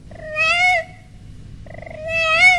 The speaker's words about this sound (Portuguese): E o gatinho foi chegando e foi miando.